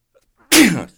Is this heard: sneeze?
yes